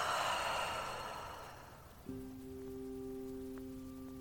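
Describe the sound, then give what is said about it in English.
A long, airy exhale at the end of a deep breath, starting strong and fading away, followed by a steady, sustained tone. “Soften into yourself with a deep breath in through your nose and exhale.”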